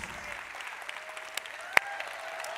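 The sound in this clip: A church audience across several campuses applauds to welcome its executive pastor. The clapping is a faint, even wash with a few sharper claps standing out.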